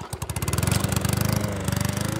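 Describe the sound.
A push lawn mower engine runs in a big yard beside a white ranch home in a narrow Kentucky valley. It gives a loud, rapid chugging putter with an even, steady rhythm throughout.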